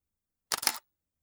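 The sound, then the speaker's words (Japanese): A camera shutter fires in a video game, a single crisp, short mechanical click in two quick parts, heard alone against silence. “写真撮っちゃお”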